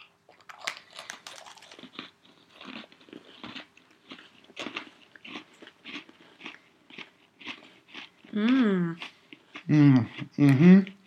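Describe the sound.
Biting and chewing of Oreo cookies with cream cheese frosting during a taste test: many crisp, irregular crunches, followed by voices talking near the end.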